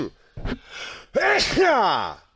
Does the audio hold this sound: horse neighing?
no